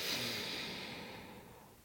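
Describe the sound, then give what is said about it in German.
A deep breath drawn in through the nose during a breathing exercise, a single soft, airy, hissing inhalation that fades gradually over about two seconds, with no speech. “Tief einatmen durch die Nase”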